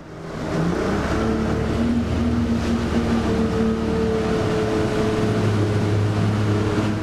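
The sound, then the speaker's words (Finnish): A boat's engine drones steadily as the boat crosses the Tigris river from Iraqi Kurdistan to the Kurdish region of Syria. The loud, constant hum carries low tonal lines that waver slightly in pitch and runs unbroken throughout. “Matkaamme veneellä Irakin Kurdistanista Tigrisjoen yli Syyrian kurdialueelle.”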